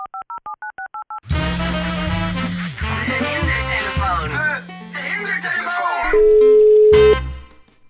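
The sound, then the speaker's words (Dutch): Electronic telephone tones on a Dutch radio show: a quick run of short, clean beeps alternating between two pitches, cut off by loud music that plays to the end. “word net gebeld.”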